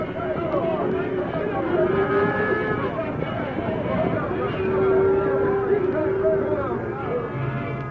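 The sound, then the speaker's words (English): A frightened herd of cattle lows and bellows in a dense, overlapping chorus, long tonal moos rising and sliding over a continuous rumbling bed that stays loud throughout. “Sending Silver at the herd with the sheriff and Hilton following, the masked man aroused the frightened animals, brought them blundering to their feet, heading them about and drove them in a terror-stricken mass”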